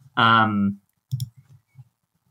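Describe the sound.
Keys are pressed on a computer keyboard to navigate app tabs via shortcuts. A short voiced sound comes first, then a few soft, sparse clicks and taps.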